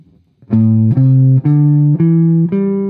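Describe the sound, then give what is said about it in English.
An A minor pentatonic scale played as five clear, sustained notes stepping upward one after another at an even pace, each loud and rich in harmonics, with no voices. “Okay, so a minor pentatonic sounds like this. So this is an A minor pentatonic.”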